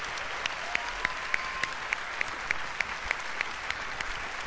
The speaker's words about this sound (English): Let's give it up for Angela Bassett.